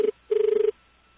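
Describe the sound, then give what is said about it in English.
Australian telephone ringing tone: a low, buzzing tone in short bursts, one cut-off burst followed by a pause and one full burst, then quiet. “It'll ring Australian ring a few times, I think, before it goes into the voicemail.”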